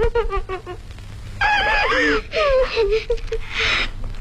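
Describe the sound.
A woman cries with joy while hugging a child, her wavering, high-pitched sobbing wails rising and falling over several seconds, broken by short catches of breath.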